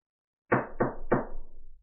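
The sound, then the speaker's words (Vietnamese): Three sharp knocks on an office door bearing a nameplate, evenly spaced and loud, each thud ringing briefly before the next, with a fading resonance after the third. “La Phong gõ cửa.”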